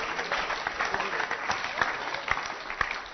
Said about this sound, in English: Clap your hands for her.